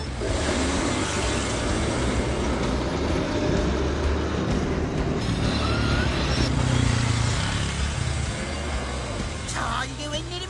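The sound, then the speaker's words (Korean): Car wheels spinning in sand as a yellow car gets stuck and a tank drives past, heard as a steady, dense rumble of engines and grinding that holds at an even loudness throughout. “노란 차가 모래에 빠졌어요. 스포츠카는 통과할까요? 아, 이게 웬일입니까? 차 바퀴가 모래에 빠져 헛바퀴만 돌고 있네요. 하지만 탱크는 늠름한 모습으로 옆을 지나가고 있습니다.”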